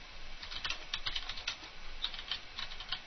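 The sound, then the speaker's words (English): Typing a sentence on a computer keyboard: many quick, light keystrokes in an uneven rhythm, quiet and alone. “Let's type a sentence. T space.”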